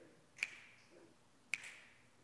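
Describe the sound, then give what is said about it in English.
Two crisp finger snaps, about a second apart, each sharp and brief against a quiet background. “Here, snap your fingers.”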